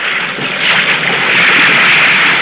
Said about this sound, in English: With the wind blowing 20 to 25 knots and the sea coming at you in long rolling swells, the tops blowing off, feathering into the night